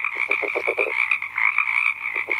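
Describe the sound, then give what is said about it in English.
A California red-legged frog gives low grunting calls, recorded last winter, beneath a bright, steady chorus of tree frogs. A quick run of throaty pulses is followed by a pause and then a few more grunts. “So this is from last winter. And can you kind of hear that grunting sound, like a finger rubbing on a balloon beneath the sound of those tree frogs?”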